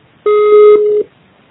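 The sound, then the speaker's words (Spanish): A voicemail recording tone: one steady, clear beep lasting about three-quarters of a second, heard alone against near silence. “Por favor, deja tu mensaje después del tono.”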